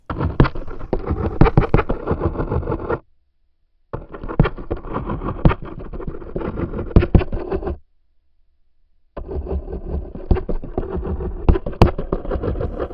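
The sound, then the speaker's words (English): A male Schizocosa ocreata wolf spider, common in eastern US deciduous forests, makes a courtship vibration by stridulation. Three long bursts of dense, scratchy, rasping buzz are separated by short silences. “What you've just heard is the courtship vibration of a male Schizocosa ocreata, which is a very common wolf spider in the eastern deciduous forest of the United States.”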